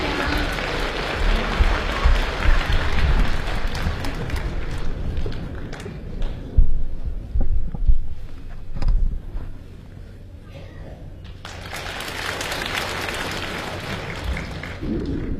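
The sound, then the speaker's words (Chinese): Sustained audience applause welcomes two crosstalk comedy performers onto a stage. The dense, loud clapping eases for a moment midway before swelling again. “咱们掌声有请著名相声表演艺术家李金斗老师和他的高徒刘颖，有请二位。”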